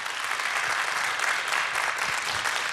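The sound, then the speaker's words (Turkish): Audience applause for a Turkish classical music orchestra with saz players at a concert: a thick, continuous wash of clapping at an even, loud level throughout. “Onur Özel Çağlayan ve orkestrasına da güçlü bir alkış rica edebilir miyim efendim?”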